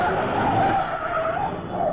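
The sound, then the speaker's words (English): Tires skid and squeal as a car pulls away from a factory, a loud, sustained screech over the engine's roar that holds for the whole moment. “There go car now from the factory”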